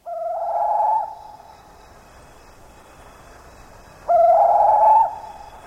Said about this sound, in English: That's the sound of one of the many bird species found in the forests of Indonesia.